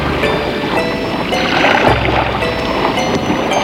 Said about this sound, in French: le bruit de la mer